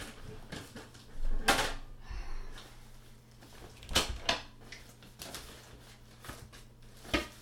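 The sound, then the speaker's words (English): Mail drops through a door mail slot with a few sharp clacks and rattles, then softer rustling and knocks. The sounds are faint and come at irregular moments. “Well, my mail slot is terrifying. Sorry, guys. I'm not dead. I was not killed. They just dropped off the mail.”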